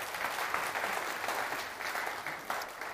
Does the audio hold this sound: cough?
no